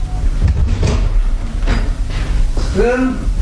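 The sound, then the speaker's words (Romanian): A door being opened, with a few thumps and clunks, followed by a voice speaking briefly at the end. “Iată, a ajuns la ușă. Nu e nimeni? Deschid acum!”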